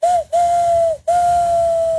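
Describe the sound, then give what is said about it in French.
A person mimics a train whistle using fingers and mouth, giving three loud, steady whistled blasts on one pitch. The first is short and the next two are longer, each dipping slightly as it ends. “Ah, ça fait bien le train aussi. Ouais, ah bah, oubliez tout, je sais faire le train.”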